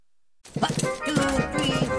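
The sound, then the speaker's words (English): Marching footsteps of carpenter ants, played as a comic advert sound effect, begin abruptly after silence as rhythmic clip-clop steps. The steps continue steadily while a voice speaks over them. “Hear that? That's what it sounds like when the ants go marching in to your home.”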